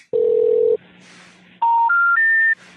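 Telephone tones while dialing a 732 number: one long, steady low tone, then, after a quiet stretch with faint hum, three short, loud tones stepping upward in pitch one after another, followed by a soft tail.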